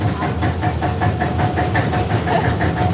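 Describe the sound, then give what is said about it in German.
A small 14 hp field railway locomotive chugs out of a peat railway station. A loud, steady, low throb carries quick, regular beats, with a rattling clatter riding on top. “Das ist der Zug Molly, der so laut tut, oder? Die Molly ist laut, aber das ist etwas Angabe. Sie hat nur 14 PS.”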